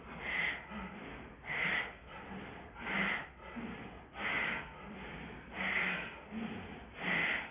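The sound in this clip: Forceful bhastrika bellows breathing into the belly during a pranayama practice: a steady series of rushing, snort-like breaths about once a second, moderately loud, with no talking.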